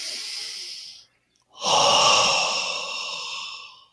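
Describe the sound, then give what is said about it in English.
A deep belly breath during a calming coherence session: a long airy inhale, a brief silent pause, then a slow, loud, breathy exhale that fades out gradually. “it's usually this deep belly breath comes through, like,”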